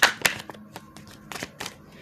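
Tarot cards are shuffled and drawn during a reading, giving a few sharp slaps and light taps spaced irregularly, followed by softer rustling clicks.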